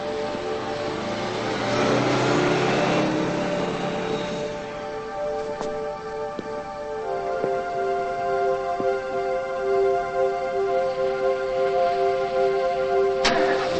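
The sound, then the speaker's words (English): A car engine starts and the car creeps along slowly, its low rumble carrying a droning harmonic hum that stays fairly even throughout. “Joe starts his car and slowly drives over to her.”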